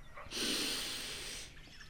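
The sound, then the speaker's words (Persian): A voice imitates an otter taking a deep sniff after spotting bread in a children's story: one long, breathy inhaling hiss lasting about a second, rising quickly and fading out, heard alone. “سمور تا چشمش به نون افتاد نفس عمیقی کشید و گفت”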